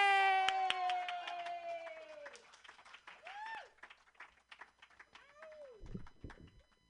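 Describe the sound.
Applause from a comedy show audience as a comedian is brought on stage: scattered, fairly faint claps with high whooping and cheering voices, followed by talk.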